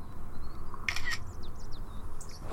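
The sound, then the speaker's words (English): Camera shutter clicks as a selfie is taken at Cheddar Gorge: two quick, sharp mechanical snaps close together over a faint steady hum, with thin bird chirps in the background. “since we're at Cheddar Gorge, it feels only right to take a quick selfie. Say cheese.”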